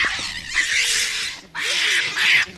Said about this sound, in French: Alors, ils poussent des cris, d'abord pour s'impressionner, en montrant leur grande canine, ils s'impressionnent.